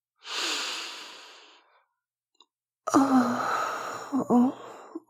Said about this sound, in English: Here, breathe in the scent of this place.